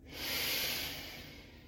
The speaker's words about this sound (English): I'm feeling the now. I'm feeling this breath.